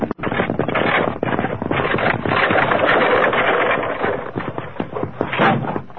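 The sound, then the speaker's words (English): A runaway wagon wheel, loose from the main trail above, rolls down into a deep ravine with a dense, continuous clattering rumble. The sound stays loud and rough for about six seconds, with a quick dip near the start. “Evidently a runaway wagon wheel. Steady, Silver. Must have rolled off the main trail up above us. Ah. I heard it coming.”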